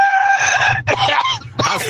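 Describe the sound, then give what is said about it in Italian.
A human voice imitates a rooster crowing with a cough: harsh, strained, high-pitched crowing in three bursts, the first the longest, with rough coughing breaks between them. “Il gallo con la tosse è bellissimo.”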